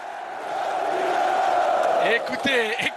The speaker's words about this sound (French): Écoutez ce public.